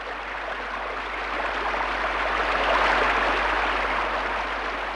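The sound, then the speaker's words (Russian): Heavy pouring rain as a dense, steady hiss with no breaks, swelling a little in the middle and holding at a constant loud level throughout. “Ну и льет. Я в самом деле весь промок.”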